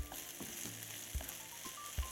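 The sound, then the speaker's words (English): Oregano and red pepper sizzling as they are sprinkled onto hot oil: a steady crackling fry with a few brief, louder pops and soft knocks rising above it. “I'm going to use a little bit of oregano and some red pepper. The red pepper is a bit optional, but I think it really gives this a nice little punch. So sprinkle that right on top of the oil.”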